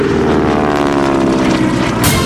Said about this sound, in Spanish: Los motores empiezan a rugir, primero indecisos, después con fuerza. Y entonces el avión despega.